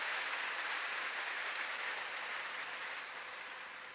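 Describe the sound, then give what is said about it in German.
Audience applause at a religious gathering, sustained and evenly dense clapping that fills the whole clip and eases slightly in loudness toward the end. “Applaus”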